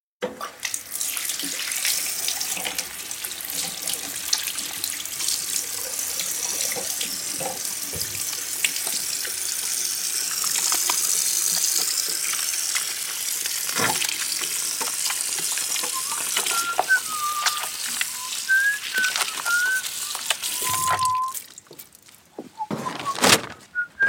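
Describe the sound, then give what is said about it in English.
Hands washed under a running kitchen tap before cooking: a steady, loud rush of water hisses for around twenty seconds, then cuts off, followed by a few brief knocks and clinks. “So let's go ahead and wash our hands right now.”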